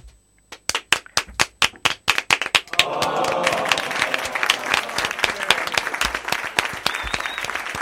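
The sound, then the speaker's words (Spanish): Audience applause at a live video game debate: a few sharp, scattered claps at first, then swelling into loud, dense, sustained clapping that carries on steadily to the end. “Creo que tienes el honor de que es la primera vez casi que las damas que aplauden, aplauden a la hora.”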